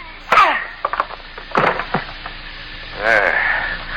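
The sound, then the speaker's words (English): A few sharp, woody thwacks of a person being hit in a dramatized fight land in quick succession, each a short crack over a faint hiss, followed by a brief warbling tone. “Hit him again.”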